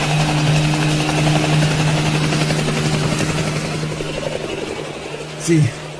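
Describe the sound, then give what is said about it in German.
A helicopter drones steadily with a low, throbbing rotor and engine hum that slowly eases in loudness as it flies away, and a brief voice cuts in near the end. “Sie haben den Hubschrauber erreicht! Und sie fliegen weg.”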